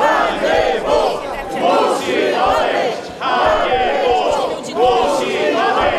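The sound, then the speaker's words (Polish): Many Warsaw residents shout during a city council session, a loud crowd of overlapping voices rising and falling in surging waves. “W trakcie sesji rady można było usłyszeć okrzyki licznie zgromadzonych mieszkańców Warszawy.”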